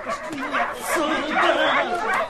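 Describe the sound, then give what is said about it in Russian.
Dogs yelp and whimper during a dog race as another dog rushes at them, with excited voices and chatter mixed in. “И вот тут на собак налетел Микки.”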